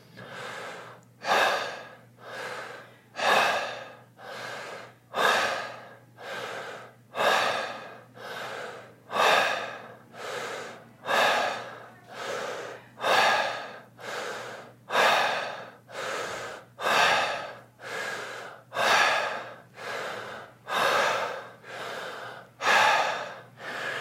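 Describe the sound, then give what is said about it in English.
Deep, forceful breathing during a Wim Hof breathwork round: many rhythmic inhale-exhale cycles with sharp, gasping intakes, repeating at a steady pace of roughly one breath per second. “Since it's just one round, we can recharge up here a bit as long as we keep the quality of the breath.”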